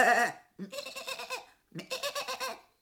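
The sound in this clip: A human voice imitates goats bleating, producing two long, quavering, tremulous bleats separated by a short pause, fairly loud and alone.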